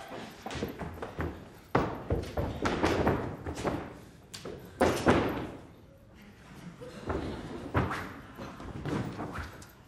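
Stick blows land in a staged beating from a 2009 production of Molière's L'Avare, heavy thuds coming in several irregular bursts with quieter stretches between.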